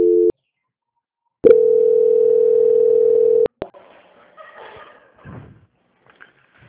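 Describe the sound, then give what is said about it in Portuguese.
A phone line tone during a call transfer: a short tone cuts off, then after a gap a steady tone holds for about two seconds and stops abruptly, followed by faint scattered noises. “Só um minutinho, já vou transferir. Tchau. Transferência.”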